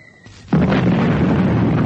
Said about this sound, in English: Suddenly, a shell exploded in the road about 100 meters ahead of her, and the blast threw her from the bicycle.